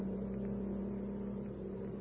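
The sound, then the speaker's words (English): A car driving at about 55 miles per hour, heard as a faint, steady low engine drone that holds an even pitch and level throughout. “Aren't you going rather fast? 55, that's all. That's all right. This car can take it.”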